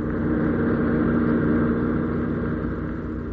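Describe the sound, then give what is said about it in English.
A car being driven fast, heard as a loud, steady engine and road drone that holds evenly for the whole stretch with no voices. “Need to drive quite so fast, Michael”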